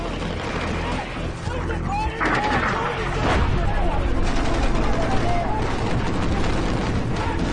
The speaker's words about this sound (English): Jason filmed some of the only footage that exists of those early Taliban attacks.